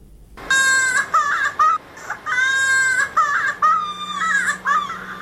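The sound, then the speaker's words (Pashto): A young child cries loudly in a series of sustained, high wailing bursts separated by short catches of breath, with no talk. “چې د یو ماشوم په جړه پیلېږي”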